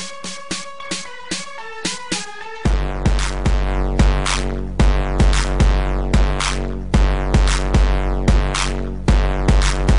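An instrumental electronic track opens with short plucked melodic notes, then a heavy booming kick and bass drive a steady repeating beat with bright synth stabs layered on top.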